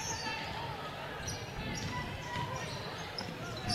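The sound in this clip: A basketball is dribbled by a player during a women's basketball game, its bounces faint under a continuous wash of crowd noise and talking voices.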